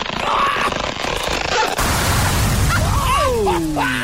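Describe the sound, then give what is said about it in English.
Christmas cracker pulled and popping as a loud explosive blast, a sustained rough roar with falling whistling tones sweeping down near the end. “I get to pull the cracker and let us see what you get.”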